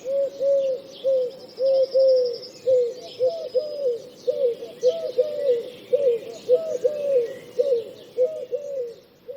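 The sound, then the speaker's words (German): A Eurasian collared dove repeats its three-element coo, a soft, low, hooting phrase given many times in a steady rhythm, with faint higher chirps from other birds behind it. “Die Türkentaube hingegen klingt ähnlich wie die Ringeltaube, aber ihr Ruf enthält 3 statt 5 Elemente.”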